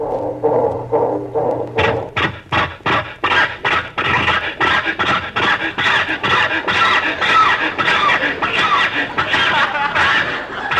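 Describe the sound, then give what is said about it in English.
An old car's starter motor cranks over and over while the engine fails to catch, a long run of fast, even, chugging pulses that keep a steady rhythm. “Rochester, try the starter again. Oh, Jack, we've been trying to start the car for 20 minutes.”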